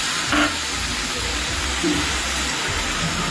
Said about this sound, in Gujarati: હવે ગેસની ફ્લેમ આપણે થોડી સ્લો કરીશું. ત્યારબાદ આપણે ઝીણા સમાયેલા બે ટામેટા નાખીશું.